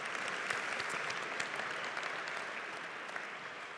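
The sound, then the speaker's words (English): A church audience claps in steady applause for viewers watching online and on television. The clapping is dense and even, easing slightly toward the end. “For those of you in the room, can you please give our online television audience a big hand?”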